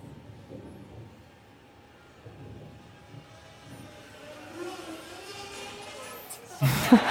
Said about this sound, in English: We snag the plane out of the sky, and then we gently plop it onto an actively inflated cushion.